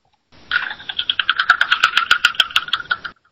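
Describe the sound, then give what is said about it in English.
An online random name picker wheel spins with a long run of quick, bright ticks. The ticking holds a fairly steady pace for about three seconds, then stops abruptly. “So I've got all the names loaded up in the random name picker, and I'm going to give this wheel a spin.”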